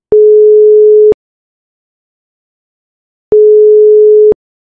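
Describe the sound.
A telephone call ringing through: two loud, steady, low beeps of about a second each are separated by a long silence, with nothing else heard.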